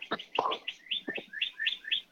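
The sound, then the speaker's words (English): Birds chirping up in the treetops: a quick, bright run of many short, high, repeated chirps and tweets in a fairly steady rhythm, heard alone without talk. “I love that we're having birds in our podcast too.”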